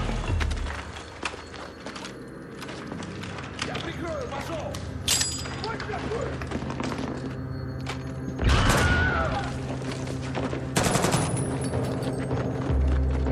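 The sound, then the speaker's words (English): Grenade explosions and gunfire in a first-person shooter video game, with a few heavy booming bursts among rattling shots. People talk over the game sound. “Where is he getting all these grenades from? They're clipped to his belt.”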